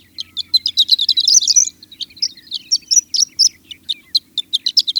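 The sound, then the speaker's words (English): A horned lark sings over wheat fields in thin, high, tinkling chirps. Many short notes come in quick bursts, with a dense run early on and then more spaced phrases, over a faint low hum. “Horned larks are less choosy, nesting right in the wheat fields and fledging their broods before harvest time.”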